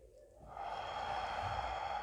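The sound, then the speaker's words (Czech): A steady, breathy inhalation through the nose during a deep-breathing exercise, starting after a short pause and drawn out for about one and a half seconds as a soft, even hiss. “teď si to mhm. můžeme vyzkoušet, nádech nosem”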